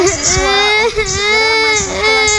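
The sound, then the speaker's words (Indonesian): A young child cries loudly after being told not to play outside after school. The crying comes in sustained, wavering wails with brief catches between them and keeps going steadily throughout. “Dia nangis karena gak boleh main di luar sama”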